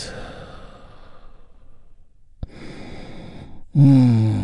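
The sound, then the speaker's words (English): Deep breathing during a guided relaxation exercise, a breath taken in and released. Long, airy breath noise fades, a brief click follows, then another breath and a louder voiced exhale at the end. “big, deep, healing breath with me right now. Here we go. And release.”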